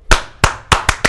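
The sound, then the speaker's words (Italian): Rhythmic group clapping by a radio studio crew doing a double Cuban applause: five sharp, loud claps, with the last ones coming quicker than the first. “chiede un doppio applauso cubano per Ninfa Caruba e per Amaretto”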